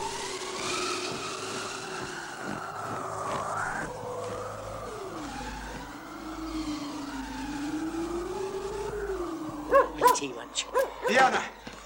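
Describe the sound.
A stuck motorcycle's engine strains and whines in long, wavering pitch swings as it fails to get going, with a few sharp dog barks breaking in near the end.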